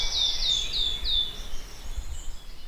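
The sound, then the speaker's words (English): A wood warbler sings in the Brecon Beacons: four high, clear notes, each sliding downward, follow in quick succession, then the song stops and only a low background rumble remains. “So that's the epically beautiful and exotic song of the wood warbler.”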